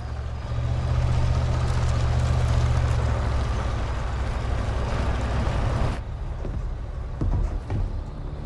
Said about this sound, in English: He looks out the window at the flashing police car driving up to the cabin.